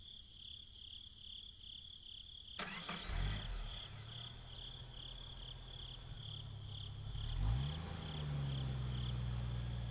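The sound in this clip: A car engine cranks and catches with a sudden burst, then idles with a low steady rumble and revs up briefly near the end, as a constant high chirping of crickets continues throughout, with no voices.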